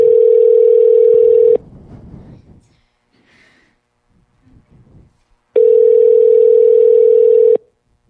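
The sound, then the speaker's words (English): Ringing tone of an unanswered telephone call: two loud, long, steady tone bursts separated by a quiet gap with faint rustling. “The thing about our secret caller segment is that people sometimes don't answer. That's a frustrating part. Then we just hear the ringing of the phone.”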